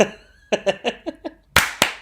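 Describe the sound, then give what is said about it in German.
A group claps together in one loud, sharp burst, followed by a second clap. Before the claps come a few short voiced sounds like quick laughs. “Okay, 25, 10 klatschen wir. Macht euch bereit.”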